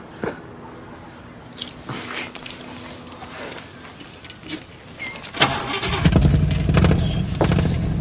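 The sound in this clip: A 1957 car's engine starts up. A few clatters and knocks come first, then the engine catches and settles into a loud, steady low rumble.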